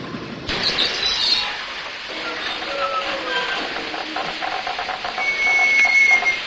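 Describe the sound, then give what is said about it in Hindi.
A train pulls away from Kakori station as a steady, broad rumble and hiss of moving carriages rise suddenly and keep going. A thin, high whistle-like tone sounds near the end. “योजना के अनुसार गाड़ी के Kakori station से छूटने के कुछ देर बाद ही जंजीर खींच दी”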